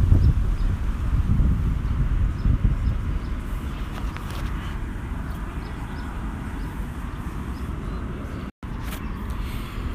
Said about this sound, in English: I wonder how the... how this wind is translating onto this I'm not sure. I hope it doesn't mess it up or anything.